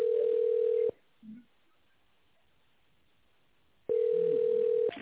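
Telephone line tone while a company call is transferred to a secretary: a steady, mid-pitched electronic tone, a quiet gap of about three seconds with a faint click, then the same tone again; no voices.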